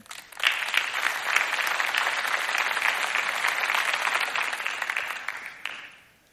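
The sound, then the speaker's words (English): An audience applauds as a bishop comes up to speak: dense, steady clapping that swells quickly, holds for several seconds, then fades away. “Anyway, please welcome Bishop Ed.”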